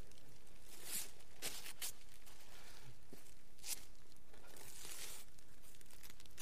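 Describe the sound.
A wrapped Christmas parcel is torn open with faint, scattered bursts of crinkling and ripping paper, several quick tears spread irregularly across the stretch.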